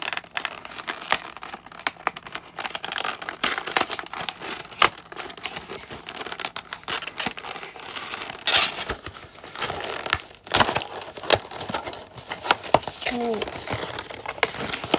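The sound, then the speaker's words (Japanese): Packaging being torn open and crinkled while unboxing a carefully packed, battery-powered toy, a dense, steady run of crisp crackles, rustles and tapping clicks lasting about fifteen seconds at moderate level. “早速おもちゃの方を開封していきたいと思います。”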